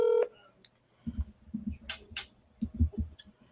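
A telephone dialing tone sounds as a call is placed, a short bright beep at the start followed by a run of soft, low thumps and faint clicks.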